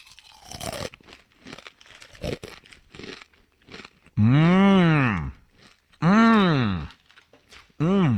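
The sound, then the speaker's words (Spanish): Takis Fuego chips being eaten, with several sharp, dry crunches at the start, then three long, loud vocal sounds that rise and fall in pitch. “Es una bolsa de taquis. Fuego. ¡Ay, qué rico!”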